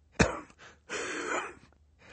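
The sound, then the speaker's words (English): A man coughs into a handkerchief: one sharp, abrupt cough burst, then a longer rasping, breathy exhale and a softer trailing breath, moderately loud with no talk. “Mr. Poe opened his mouth to speak, but had to cough into a handkerchief before he could begin.”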